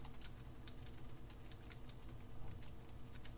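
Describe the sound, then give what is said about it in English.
Soft tapping on a quiet Braille keyboard, a fast, continuous run of many light key clicks, faint throughout with no voices. “So these Braille keys were designed very carefully. They sit just so that each key sits under your finger, and when you press, the keys aren't that loud. If I'm typing,”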